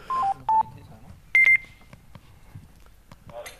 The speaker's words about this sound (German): Oh, wir haben einen Anruf.